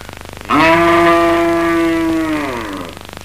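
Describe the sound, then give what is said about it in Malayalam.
A cow moos in one loud, long, drawn-out call that holds a steady pitch before tapering off. “ആ പശുവിന് ഇച്ചിരി വെള്ളം കൊണ്ടുപോകണം എത്ര നേരമായിട്ട് കിടന്ന് വിളിക്കുന്നു”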